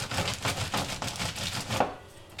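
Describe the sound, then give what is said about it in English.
Nuts being whacked to crush them into coarse pieces for a dish: a steady run of several dull, even thumps, then a quieter stretch at the end. “But you just take them out and you just whack the nuts like so.”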